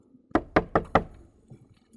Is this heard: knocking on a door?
yes

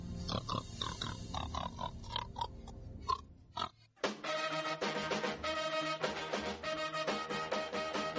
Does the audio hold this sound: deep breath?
no

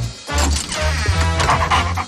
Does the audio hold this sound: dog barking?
yes

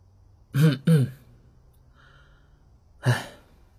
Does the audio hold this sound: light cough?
yes

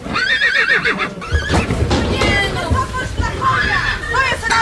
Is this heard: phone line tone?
no

